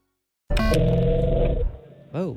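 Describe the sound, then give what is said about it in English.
A Dodge Charger's engine roars in one loud, sustained burst of about a second, then drops away as a voice briefly follows. “Are you driving a Mustang or something? Charger.”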